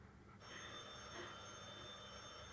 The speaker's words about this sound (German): Telefon. Soll ich hingehen?